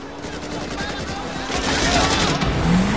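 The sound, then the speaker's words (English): Rapid gunfire crackles behind a speeding Mercedes in a car chase, dense and continuous within a loud, roaring wash of noise that swells toward the end. “Gunfire snaps at their tail.”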